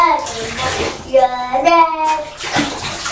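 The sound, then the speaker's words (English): Water splashes and pours in a bath as a child's hair is washed, a soft wet wash of sound with a child's voice rising over it in the middle and a brief burst of splashing near the end. “I'm going to wash your hair. Can you put your head back for me”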